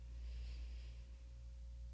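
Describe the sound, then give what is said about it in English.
A slow nasal exhale during a guided breathing exercise, a soft, faint airy hiss that fades over a steady low hum, with no talking. “And exhale through your nose.”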